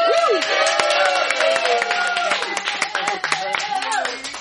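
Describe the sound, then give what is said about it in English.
Crowd applause at a birthday celebration: many sharp, rapid claps layered under lively voices talking and calling out, fading slightly toward the end. “Let's have a big round of applause for Dwight.”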